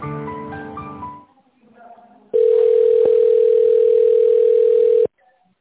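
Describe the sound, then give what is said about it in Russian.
Telephone tone while waiting for an answer, after a brief recorded voice prompt: one steady, loud, unbroken tone lasting nearly three seconds, then silence. “Ожидайте ответа или наберите добавочный номер.”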